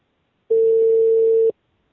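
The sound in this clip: One ring of an unanswered phone call, a flat, steady, buzzy tone lasting about a second, then silence.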